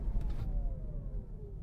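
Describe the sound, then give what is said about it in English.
Car slowing under regenerative braking at traffic lights: a steady low road rumble with a faint electric whine that falls gradually in pitch. “Bit of regenerative braking as the traffic lights decided to stop on me there.”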